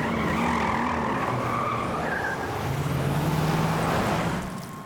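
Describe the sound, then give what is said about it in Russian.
Cars drive away with loud engine roar and squealing tires, a continuous rush of sound that fades near the end. “Машины уезжают.”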